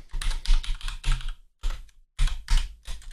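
Someone types a message on a computer keyboard: rapid, clattering keystrokes in quick bursts, broken by two brief silent pauses before the fast clicking resumes.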